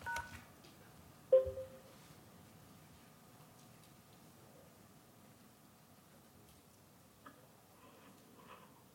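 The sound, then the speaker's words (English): Faint telephone keypad tones on a conference-call dial-in as a PIN and hash key are entered: one sharper beep near the start, then a couple of fainter ones late, over steady low hiss. “To enable audio controls, please enter your audio PIN followed by the pound or hash sign. If you do not have a PIN, just press pound or hash.”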